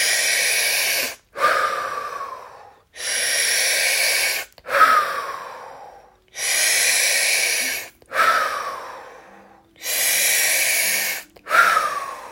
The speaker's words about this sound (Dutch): In en weer uit. 2e keer in. Uit. Daar gaan we. Adem in.